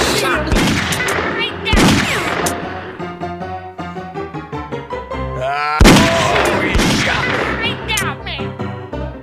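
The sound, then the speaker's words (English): Gunfire in the video game Grizzly Gulch: a few sharp shot bursts ring out over steady game music, with a loud burst near the start and another strong one later, then rapid cracks trailing off. “He shot me. I see him.”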